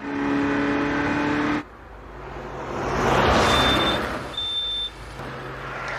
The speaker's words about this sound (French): Interception de contrôle, Ferrari rouge, Testarossa, 307 km/h.